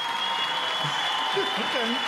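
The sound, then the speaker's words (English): Studio audience applause welcoming a guest onto a talk show, a steady dense clatter of clapping that holds for the whole stretch, with a voice rising faintly over it near the end. “That's a white folks applause.”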